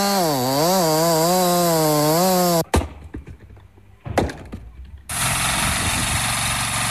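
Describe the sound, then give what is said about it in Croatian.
A chainsaw cuts firewood in a yard during winter wood preparation. The engine revs with a wavering pitch, a few brief clunks of wood follow, then a loud, steady buzzing whine as the saw bites in. “Tako se iz mnogih dvorišta čuje zvuk motorne testere, sjekire ili mašine za cijepanje drva.”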